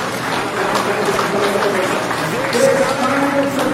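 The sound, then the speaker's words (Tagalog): A church audience applauds loudly in a dense, sustained wash of clapping that holds steady the whole time, with voices audible over it. “Palakpakan po natin ng malakas.”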